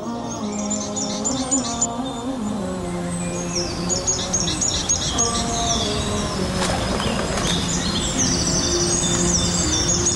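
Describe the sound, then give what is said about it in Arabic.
A sparrow chirps in repeated high, bright twitters. The chirps run steadily and fairly loud through the whole stretch, over a continuous tonal background. “عصفور ايش هذا؟ قلت لك عصفور.”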